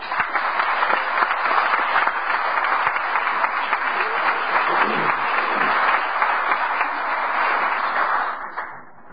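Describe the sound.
Audience applause welcoming a priest to the front at an Alcoholics Anonymous gathering: dense, steady clapping from many hands, loud and continuous, thinning slightly in the last moment.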